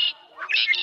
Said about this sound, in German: Das hier? Das ist eine Amsel. Die müsstest du aber kennen. Die flitzt dir hier durch alle Gärten und kann ein ganzes Konzert allein veranstalten.